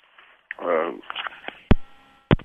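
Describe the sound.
A radio call-in caller's telephone line drops off: thin, band-limited phone voice over a low hum, followed by two sharp, loud clicks as the connection cuts out.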